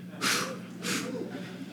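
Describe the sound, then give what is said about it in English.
Deep breath taken during a sermon, two soft, airy breath sounds a little over half a second apart, faint over a low steady hum. “Let's just take a breath.”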